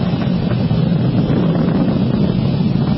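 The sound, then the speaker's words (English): Steady, dense roar of Falcon 9 rocket engines throttling back up to full power after passing maximum aerodynamic pressure during a supersonic launch: a loud, continuous, low-heavy rumble with constant rough texture and no voices. “M1D throttle up. We're throttling back up to full power as we're through Max Q.”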